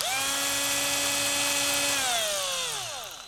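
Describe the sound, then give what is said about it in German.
Cordless drill whirring as it drives screws through fender washers: a steady, high-pitched motor whine that drops in pitch and fades as the motor winds down. “Und ich werde jetzt mit dem Akkubohrer die Augen und den Mund befestigen. Das ist aber auch kein Hexenwerk. Einfach die Kotflügelscheiben mit den Schrauben festschrauben.”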